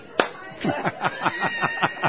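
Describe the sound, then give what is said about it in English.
Hands clapping in a quick, steady rhythm, about ten sharp claps evenly spaced over a couple of seconds, mixed with vocal sounds and light chuckling. “the two of them could turn off the lights with a clapper. Clap on.”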